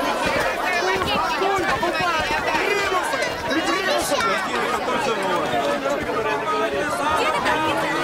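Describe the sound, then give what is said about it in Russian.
Busy crowd hubbub at a lively outdoor market square in a film, where hardware, irons and locks lie on cloths on the ground; overlapping voices and chatter form a continuous dense babble throughout. “Агарков и Джурабаев пробираются через толпу.”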